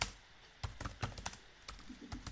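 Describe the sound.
Typing on a computer keyboard: many quick, irregular keystrokes clack in short bursts, fairly soft and with no voices.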